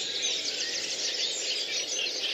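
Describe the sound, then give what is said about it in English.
A reed warbler gives its mechanical, chattering call in a reed bed. The call is a continuous, dense, high-pitched churring that runs without a pause at steady loudness. “But that mechanical call, what's that bird that we can hear calling? So the mechanical bird that you can hear is a reed warbler.”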